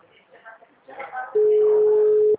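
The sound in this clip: A telephone call tone sounds while a number is dialed: someone speaks briefly, then a single steady, mid-pitched tone holds at constant loudness for about a second before cutting off.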